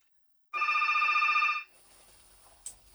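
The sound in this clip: An incoming call rings a telephone as a single warbling electronic trill, lasting about a second. A faint hiss and a brief click follow.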